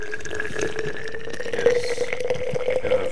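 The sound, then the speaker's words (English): Coffee from a French press pours into a thermos in a steady liquid stream with light gurgling and dripping. The pour runs unbroken for about three seconds, with no talk. “here we are pouring the coffee”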